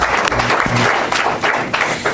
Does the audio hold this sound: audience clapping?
yes